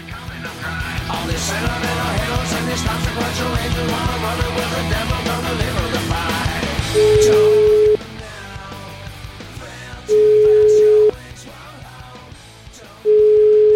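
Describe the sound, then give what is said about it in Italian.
Telephone ringback tone while calling someone: after a stretch of music, three steady, mid-pitched electronic beeps sound at even intervals of a few seconds, each about a second long, with quieter sound lingering between them. “uno dei figli di Toscani, proverei a chiamarlo Rocco Toscani”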